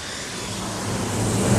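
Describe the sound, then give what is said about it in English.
A passenger airplane flying overhead: a broad, steady roar that grows gradually louder across the short span, with no voices. “A passenger airplane flies overhead.”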